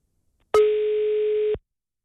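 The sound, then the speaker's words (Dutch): A telephone ringing tone sounds while calling someone back: a single steady, clear tone lasting about a second, alone in silence. “Oké, ik ga hem opnieuw bellen.”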